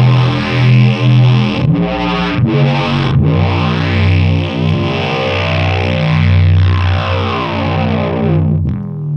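A synth sound runs through distortion and effects pedals, producing thick, buzzing, sustained tones with a chorus-like shimmer. A few brief cutouts come early on, then a long continuous drone that stops abruptly near the end.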